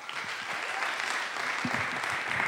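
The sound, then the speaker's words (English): Audience applause welcoming a speaker to a talk on prayer: a dense, even wash of many hands clapping that holds steady at full strength for the whole stretch. “So let's just put our hands together and welcome Bill Cusack.”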